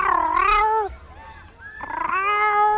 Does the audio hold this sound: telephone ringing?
no